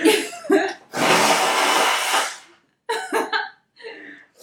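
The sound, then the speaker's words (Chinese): Someone blows their nose in one long, forceful, noisy blast lasting about a second and a half, with short bursts of talk before and after. “那sorry， 我要喷鼻涕。”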